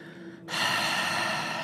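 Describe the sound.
Breathing out through an open mouth with the tongue pressed against the front teeth, a steady breathy rush that starts abruptly and continues alone to the end.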